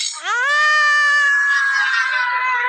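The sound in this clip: A woman lets out a long, loud, high-pitched scream that rises sharply at the onset and is then held steady, with no other voices.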